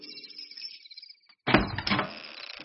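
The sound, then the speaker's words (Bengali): A door set in a wall being opened: after a quiet stretch comes a sudden loud clunk, then a few rough scraping and rattling sounds. “তারপর পাঁচিলের গায়ে দরজাটা খুলতে বলল।”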